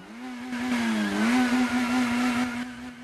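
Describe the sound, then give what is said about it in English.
A black car with a white roof revs on a broad, dusty road, its engine holding a steady drone. The pitch dips briefly, then rises again. “Revving, the car jolts to a stop.”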